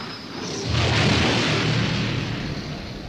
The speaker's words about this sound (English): after saturating it with fire, he saw it erupt in a spectacular ball of super-hot gas